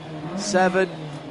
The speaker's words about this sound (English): Door closed. Car down. Fire the engine.